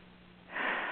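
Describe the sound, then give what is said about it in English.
One deep breath taken during a guided breathing exercise, a soft airy rush beginning about halfway through and holding steady. “Then let's take three big, deep breaths. As deeply as possible.”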